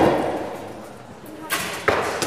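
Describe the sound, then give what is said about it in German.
Several arrows strike an archery target in the same instant during intuitive, sightless shooting. Two short, sharp thuds land close together near the end, after a stretch of low, steady background noise. “In Stille nehmen alle gleichzeitig den Pfeil, nocken ihn ein, spannen ihn, senden den Pfeil los und in derselben Sekunde macht es plopp und alle Pfeile stecken in der Zielscheibe.”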